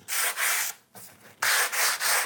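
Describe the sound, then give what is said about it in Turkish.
Wood being sanded smooth during furniture restoration, a rhythmic series of about six rasping back-and-forth strokes with a short, quieter gap in the middle, steady and alone. “Zımparalandı mı? Bu zımparalandı evet.”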